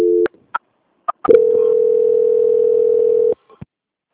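Telephone line tones during a call transfer: a short steady tone, a few brief clicks and blips, then one long flat mid-pitched beep of about two seconds that cuts off abruptly, followed by a final blip.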